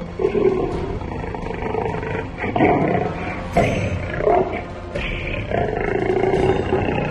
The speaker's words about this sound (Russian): Такой рык он издавал, когда ветер доносил до него запах другого голодного, переступившего границу его охотничьих угодий.